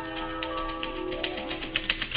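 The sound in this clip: Typewriter keys striking: a few sharp, bright clicks near the end, set against sustained, steady musical tones that run throughout.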